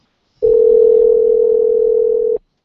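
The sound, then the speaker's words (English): A voicemail beep: one steady electronic tone, loud and alone, holding a constant pitch for about two seconds before cutting off abruptly. “That's a tone. Please leave your name and phone number.”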